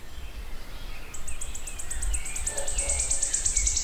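A wood warbler sings in woodland after a quiet moment. Its high, thin notes repeat faster and faster and run into a shivering trill, faint over a low background rumble.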